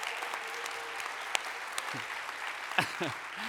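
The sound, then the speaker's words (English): A church audience applauds to thank the church hosting its gathering. The clapping is faint and steady throughout, with a few brief vocal sounds rising over it. “So can we just give a hand to anybody from...”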